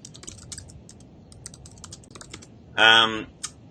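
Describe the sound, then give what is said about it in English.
Typing on a computer keyboard: a steady run of many light, quick key clicks, with a short voiced sound briefly rising over them near the end. “I'm going to just type it up.”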